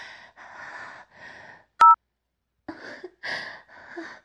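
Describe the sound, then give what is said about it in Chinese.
A telephone call ending: one short, sharp electronic beep cuts in between muffled, voice-like tonal murmurs before and after it. “那个王八蛋受不了了，挂断电话了。”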